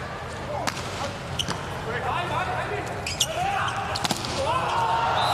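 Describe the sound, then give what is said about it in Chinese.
Sharp ball strikes from a volleyball serve and rally during a match: a few crisp hits stand out over a steady, dense crowd hubbub. “换上来的巴耶拉姆的发球”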